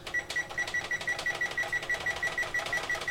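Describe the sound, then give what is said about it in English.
A kitchen oven timer is being set, giving a quick run of many short, high electronic beeps in a steady, even rhythm, faint overall. “So I'm putting it in the oven, closing the door, and now we'll set our timer”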